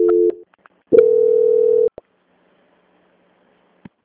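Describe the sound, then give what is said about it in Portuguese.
Telephone tones play while a call is being transferred: a brief beep, then a longer steady tone lasting about a second, followed by a couple of faint clicks on an otherwise silent line. “eu vou transferir a ligação para o controle de qualidade, que dará continuidade à sua contratação. Só um momento, por favor. Ok. Ok. Transferência.”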